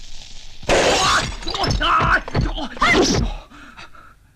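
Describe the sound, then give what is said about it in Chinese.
A clay medicine pot breaks with a sudden loud shattering crash, and voices follow, speaking and groaning. “你药罐子破了。 哎呀，那罐是药啊。”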